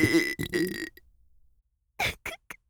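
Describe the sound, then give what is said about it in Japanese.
A sudden, unexpected burp rolls out as a loud, low, voiced belch lasting close to a second, followed after a silence by a few short, sharp vocal bursts. “お主は本当に不意打ちゲップに弱いの。”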